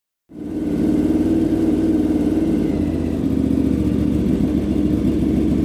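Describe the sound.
A KTM Super Adventure motorcycle engine kicks in suddenly after a moment of silence and settles into a high, rumbly idle. The loud drone holds steady, its low pulse shifting slightly midway.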